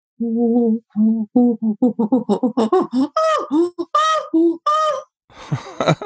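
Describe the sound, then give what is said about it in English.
A human voice imitates a chimpanzee pant hoot, a single-breath run of short panting hoots that speed up and climb in pitch toward louder, higher calls near the end. “And this is the call that a chimpanzee identifies him or herself with. They all have a slightly different one. We call it the pant hoot”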